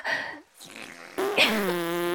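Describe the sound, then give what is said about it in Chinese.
Loud, buzzy farts in a few bursts: two short blasts, then a longer, steady, tonal one that ends the stretch. “臭死了，臭死了！你们为什么要对着我们放屁呀？”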